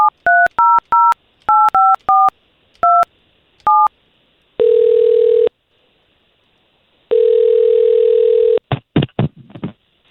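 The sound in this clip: Telephone dialing a call: a quick string of keypad tones in an uneven rhythm, then two long, steady ringing tones separated by silence, ending with a few brief clicks.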